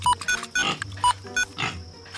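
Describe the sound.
Pig grunting: several short, squeaky grunts in an irregular rhythm, with quieter snuffling between them.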